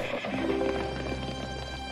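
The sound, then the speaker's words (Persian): A horse's hooves clip-clop steadily as its rider mounts and rides away, with a neigh rising over the continuous hoofbeats in a dramatized scene, loud and dense throughout. “بعد سوار بر اسبش شد و برگشت.”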